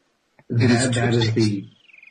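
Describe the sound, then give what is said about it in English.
A man imitates several birds on an overdubbed 1919 record: a dense, reedy vocal burst of layered calls, then a thin, high, pulsing whistled trill that trails off on its own. “is a gentleman pretending to be several birds?”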